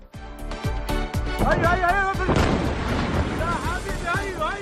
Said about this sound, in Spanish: Y este es el sonido de los bombardeos que se han producido esta madrugada.